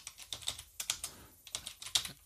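Typing on a computer keyboard, a quick irregular run of about a dozen sharp key clicks in small bursts with short gaps, moderately quiet and heard alone with no voices.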